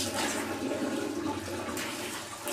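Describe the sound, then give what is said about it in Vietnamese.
Tap water running during wudu ablution as the forearms are washed up to the elbows: a steady, full rushing and splashing hiss that continues evenly throughout. “Này, từ đây mình rửa đây, nước nó chảy nè. Chảy nó tới cùi chỏ tay.”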